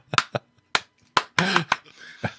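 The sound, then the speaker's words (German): Hand claps made toward a camera: a few sharp, separate slaps with short gaps between them and a brief voice among them. “klatsch nochmal schnell in die Kamera.”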